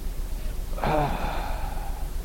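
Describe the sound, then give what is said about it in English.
A man's voice imitates a dying man's slow exhale: one drawn-out, breathy, slightly voiced sigh that fades gradually over a soft background hiss. “And he would exhale, he'd go,”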